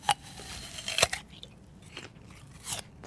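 Crisp crunches of someone biting into and chewing a Gala apple: a few faint, short, dry bursts scattered across a quiet background, with no talking.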